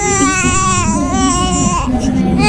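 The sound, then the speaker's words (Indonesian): A newborn baby girl, just delivered, cries in a loud, high-pitched, wavering wail that carries on without a break through the whole moment. “Bayi ibu perempuan lengkap dengan panca inderanya ya Bu ya.”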